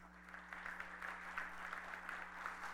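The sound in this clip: A church audience applauding to welcome a speaker at a Sunday service, with steady, fairly faint clapping over a low hum that continues evenly without a clear finish.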